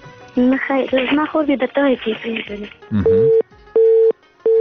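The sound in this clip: A telephone busy signal sounds after a phone call drops. A stretch of talk is followed by three steady, evenly spaced beeping tones.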